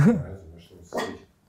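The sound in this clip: A ten-month-old dog gives a short, high, yelping bark at the start, then a second rougher burst about a second later, with quiet gaps in between.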